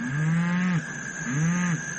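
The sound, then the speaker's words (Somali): A cow moos twice, each call a low, drawn-out bellow of about three-quarters of a second, separated by a short pause. The two calls are fairly loud and alone. “haye waasac”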